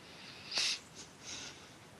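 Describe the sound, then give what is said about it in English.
A deep breath is drawn in at the start of a meditation: a soft, airy, sniff-like inhale, then a fainter second breath, both quiet. “we'll move into the meditation by simply taking a deep breath, a really deep inhalation,”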